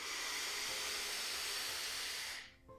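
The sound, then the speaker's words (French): A long, slow inhale through the nose during a breathing exercise, a steady airy hiss that holds for about two and a half seconds and then cuts off. “On expire profondément par la bouche. On inspire longuement par le nez”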